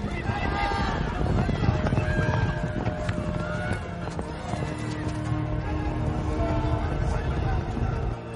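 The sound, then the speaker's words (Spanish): Pack horses and riders gallop down a slope in rugged terrain. Hooves pound in a fast, dense rhythm over a steady bed of other sound. “Los orientales siguen a los caballos de carga.”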